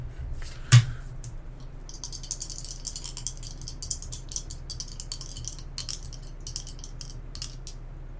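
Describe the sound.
Faint scratchy writing sounds come from someone jotting notes during a tabletop game session: many short, light strokes and ticks in an uneven stream, alone, with one sharper knock near the start.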